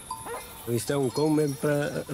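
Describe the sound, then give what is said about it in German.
A young Castro Laboreiro herd guard dog barking while protecting goats in the mountains. Several deep, tonal barks come in a quick, irregular series, fairly faint overall. “Das ist ein Hund, der dafür da ist, die Ziegen zu schützen. Er tut niemandem etwas. Er ist ein netter Hund.”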